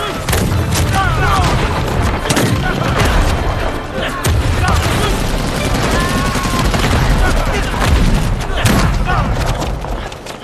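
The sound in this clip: Heavy gunfire fills a battle scene, with continuous rattling machine-gun bursts and deep booms in loud, dense volleys, and shouted voices mixed in.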